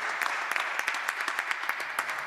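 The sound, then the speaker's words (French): Concert audience applauding a singer after her song, a dense, steady wash of handclaps that holds evenly loud throughout with no voices. “On peut applaudir Rebecca qui nous a fait la joie de chanter avec nous.”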